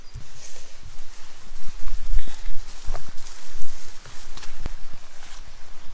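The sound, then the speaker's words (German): Footsteps of people setting off on a hike up the Hörnle: a steady run of scuffing, crunching steps over continuous rustling outdoor noise, with a few sharper knocks standing out. “Okay, los geht's. Wandern wir aufs Hörnle.”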